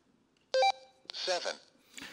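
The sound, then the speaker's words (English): An emergency two-way radio is switched on and gives one short, bright electronic beep, and a person then speaks briefly. “He have a radio like this. Not everybody has one of this. Most people have one that's linked and dialed into their area. Now, when I turn it on,”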